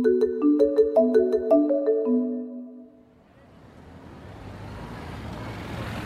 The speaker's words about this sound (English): This week, we turn our attention to the Westway, a stretch of elevated motorway built as part of an abandoned scheme to turn London into a motor city.